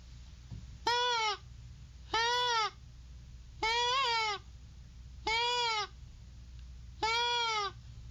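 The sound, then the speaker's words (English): A deer call imitates a doe bleat by being softly inhaled through its flex tube end, giving five evenly spaced, nasal, wavering bleats of about half a second to a second each over a quiet background. “This sound works well early during bow season to attract does into an area in hopes that lesser adult bucks will also follow.”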